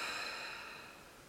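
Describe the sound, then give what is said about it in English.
A deep, soft breath out, taken during a guided breathing exercise, gives a gentle airy rush that slowly fades away. “let's just take a deep breath in together. So breathe in and breathe out.”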